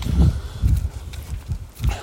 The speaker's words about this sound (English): we got hills to walk, so it's kind of adds a little bit more difficulty while I'm talking and walking hills